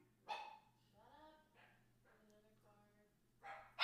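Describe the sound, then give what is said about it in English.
A dog barks outside, giving a few faint barks and whining, yipping tones spread across a quiet stretch, over a low steady hum. “Wait, wait. Is there a dog out? Is there a dog out?”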